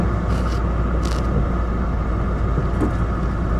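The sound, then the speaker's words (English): A car driving and merging into traffic: steady low engine and road rumble throughout, even and continuous with no voices. “Sorry, I'm just trying to merge into traffic here.”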